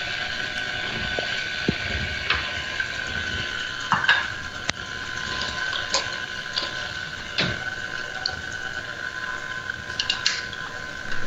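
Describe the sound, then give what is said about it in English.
A stand mixer with its lid locked down whirs steadily as canned pumpkin is mixed into creamed batter. It is a continuous mechanical hum with scattered light clicks and ticks, and no one speaks. “About a quarter cup of canned pumpkin to start mixing.”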